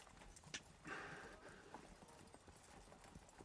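Faint horse hooves clip-clopping in a steady, even rhythm over a low background.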